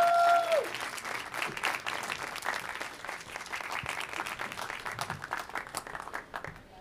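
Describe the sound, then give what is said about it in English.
Audience applause greets an actor guest at a film event, a steady, dense patter of many hands clapping that holds evenly and then thins and fades toward the end. “Let's give it up for one of the finest actors working today, Mr. Peter Sarsgaard.”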